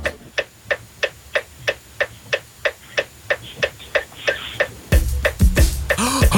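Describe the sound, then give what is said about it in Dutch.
Car turn signal ticking in a Jeep: a steady, evenly spaced run of many sharp clicks. Near the end, a louder, dense sound takes over while the ticking continues. “Oh, je moet het knipperlicht aanzetten.”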